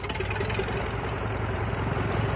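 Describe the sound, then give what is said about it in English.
An OX-5 aircraft engine from a training plane runs with a steady, loud, rumbling drone. It keeps an even throbbing texture from start to end, with no voices over it. “And it's the sound of the famous OX-5 engine.”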